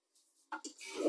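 A toilet is flushed, with a brief clunk followed by a rush of water that swells quickly and grows louder to the end.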